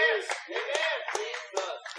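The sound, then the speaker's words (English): Congregation clapping during a sermon: a handful of sharp claps fall at a regular, roughly even pace beneath a prominent voice that continues throughout. “I love you clapping for it. Don't be bashful about it. I love it.”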